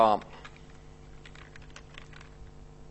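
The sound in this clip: Code being typed on a computer keyboard: many faint, quick key clicks in an uneven run over a low steady hum.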